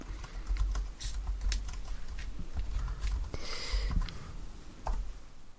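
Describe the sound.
Typing a search on a computer keyboard: a steady run of rapid key clicks with light, uneven rhythm, going on for several seconds with no talk.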